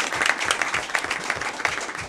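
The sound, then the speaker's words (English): Applause from attendees at a meeting, congratulating a colleague, forms a steady bed of dense, crackling claps at moderate loudness with no talk over it. “round of applause.”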